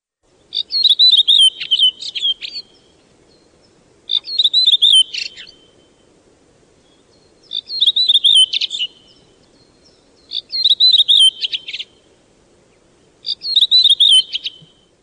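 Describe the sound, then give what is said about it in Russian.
Thrushes singing in a forest in early spring: five separate bright, ringing song phrases spaced a few seconds apart. Each phrase is a quick cluster of clear, high notes over a faint low background murmur. “Всякий из вас, кому посчастливилось побывать ранней весной в лесу, наверное, слышал веселые звонкие песни дроздов.”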